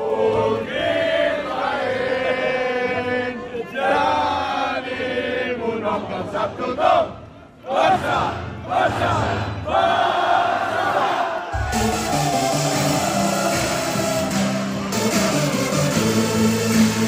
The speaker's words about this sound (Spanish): Joan Laporta a las tantas de la mañana, entrando en la pista de baile de una discoteca de Barcelona, cantando el himno del Barça y bailando lo que le pusieran para celebrar su triunfo. Este es el sonido.